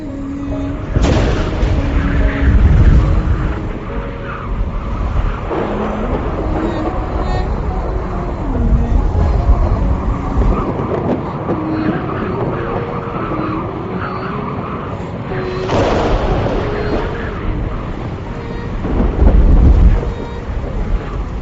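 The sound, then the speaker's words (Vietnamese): Thunder rumbles through a storm under dark clouds, with a few heavy, low booms swelling over a steady rushing backdrop. “sấm chớp rền vang, cuồng phong gào thét”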